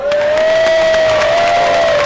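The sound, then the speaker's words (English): A game-show studio audience cheering and applauding, a loud continuous roar of voices and clapping with one steady held note riding high over the crowd noise from start to finish. “Make it sound like there's 600 people right here. Let me hear you.”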